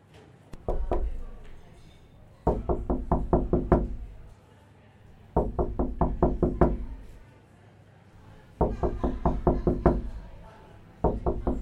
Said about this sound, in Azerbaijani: Tanış səs səda gəlir. Yenə də vaxtıdır. Qapılar tak ta tak.